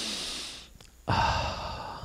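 One person takes a deep breath: an airy, breathy rush, a brief near-silent pause, then a louder, fuller sigh-like breath that fades gradually.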